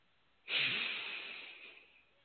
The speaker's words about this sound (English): Hold it for a second. And let it out. Another deep breath, bigger than the last.